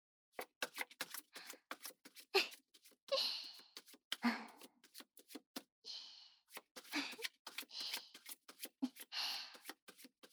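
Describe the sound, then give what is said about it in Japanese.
Playing cards being given a Hindu shuffle: many quick, crisp slides and flicks in an uneven rhythm, with a few brief, breathy rustling bursts between the sharp taps. No voices are heard. “まずは、誰でも簡単、ヒンデューシャッフル。”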